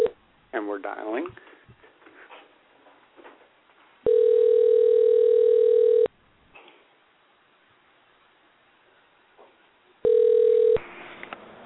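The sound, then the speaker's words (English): Ringing tone of a telephone call being placed, heard as two steady, buzzing tones of about two seconds each, separated by a long pause, with other noise before them. “And we're dialing.”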